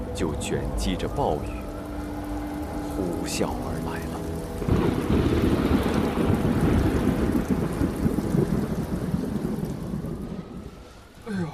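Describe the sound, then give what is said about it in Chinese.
Heavy typhoon rainstorm with thunder, from July 2021 in Yuhang: after a few seconds of quieter sound, a loud dense roar of pouring rain sets in and stays steady, with low thunder rumbling beneath, then eases off near the end. “就卷积着暴雨，呼啸而来了。”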